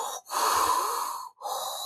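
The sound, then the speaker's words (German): A voice imitates heavy respirator breathing: one long, loud, rasping, hissing breath, then a brief gap, then the next breath begins. No other sound. “Wenn ich irgendwie anfange, stark zu schnaufen, so,”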